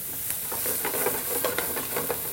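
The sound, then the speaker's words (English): Diced Yukon Gold potato sizzling in a pan over medium-high heat for a black bean and roasted red pepper frittata, a steady hiss broken by intermittent stirring scrapes and light crackles, with no talk. “Until it's kind of soft, and then I'm going to add my diced Yukon Gold potato.”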